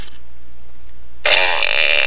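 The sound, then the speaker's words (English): A buzzy, fart-like noise erupts after a stretch of near silence and carries on loud and bright to the end, with no talking. “Here I sit, broken-hearted, tried to crap, only farted. Hey, don't look at me!”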